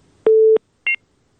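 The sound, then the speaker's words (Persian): Telephone tones as a phone call disconnects: one long, steady low beep followed after a short gap by a brief higher dual-tone beep, loud and clean with nothing else heard. “خب بازم تماس قطع شد”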